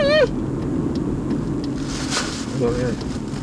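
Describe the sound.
A car being driven gives a steady, loud low rumble that runs unbroken through the whole clip, with a brief wavering higher tone at the start and another near the end.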